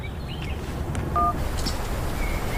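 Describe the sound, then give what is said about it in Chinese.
A telephone number is being dialed: one short keypad tone stands out faintly against a low, steady background hum. “给魏处打个电话。”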